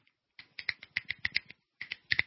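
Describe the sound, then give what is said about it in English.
Fingers snap in a scattered burst, many sharp, dry clicks tumbling in an irregular rhythm, then a short pause before a few more crisp snaps. “You got to do that. You got to click your fingers after that.”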